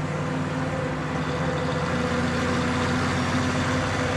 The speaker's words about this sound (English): Why doesn't he just pass me? The truck follows close behind.